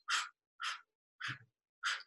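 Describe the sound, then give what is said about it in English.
Four short, breathy puffs of panting or blowing breath, as used during labour, spaced evenly about half a second apart and demonstrated by a person. The puffs are fairly loud and airy, with no talk. “She might ask you to pant or to blow, just like this.”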